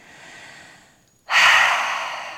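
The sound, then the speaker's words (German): Exhaling through the open mouth after briefly holding the breath during a relaxation exercise for the shoulders: a soft airy breath, a short silence, then a loud rushing exhale that slowly tapers off. “Halten hier einmal kurz den Atem an und über den geöffneten Mund atme aus, lass die Schulterblätter sinken.”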